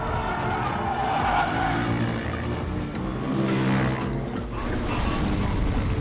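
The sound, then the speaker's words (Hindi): A car is driven hard in a chase, with skidding, squealing tires over loud, continuous engine roar that fills the whole clip with no pauses. “तेज चलाओ, और तेज चलाओ तुम।”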